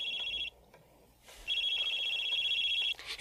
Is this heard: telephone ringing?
yes